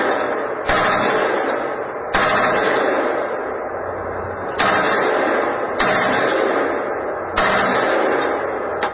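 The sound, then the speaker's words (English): Automatic gunfire in rapid bursts, a dense loud crackle that restarts with sharp onsets several times and runs almost continuously, with only brief dips between bursts. “Okay, he could have gone through the whole magazine without stopping, but he was just firing in bursts.”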